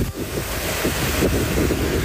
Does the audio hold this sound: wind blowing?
yes